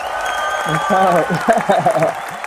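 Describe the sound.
Applause from an audience welcoming a guest, a brief patter of clapping mixed under a speaking voice.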